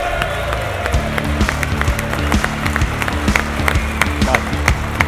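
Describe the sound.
A crowd applauds to welcome former England footballer Stuart Pearce at a live football event. The clapping is dense and steady, and a rhythmic pulsing tone runs beneath it throughout.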